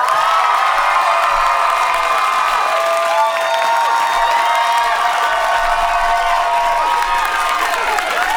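A New York City concert crowd welcomes a singer onstage, cheering, whooping and applauding. Loud, sustained shrieks and high screams sit over constant clapping for the whole stretch.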